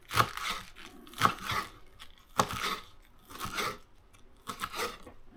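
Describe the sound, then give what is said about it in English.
Scissors cutting long strips of paper: several crisp, crunchy snips spaced about a second apart, faint, with no one speaking. “And we just cut strips. Right? Just nice, long, back to our strips.”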